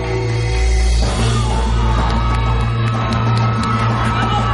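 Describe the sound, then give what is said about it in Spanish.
A stadium crowd cheers and shouts as a youth football team takes the field. It is a loud, sustained roar of voices with scattered whoops and yells throughout. “La selección infantil sale al campo aclamada por todo el público.”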